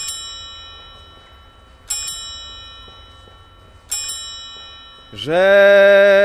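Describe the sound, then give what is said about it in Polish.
Clock striking the hours: three evenly spaced, ringing bell strikes, each fading slowly before the next, then a loud sustained tone begins and holds to the end. “Oprócz zegara, który nam będzie wybijał poszczególne godziny, będziemy żegnać cały świat.”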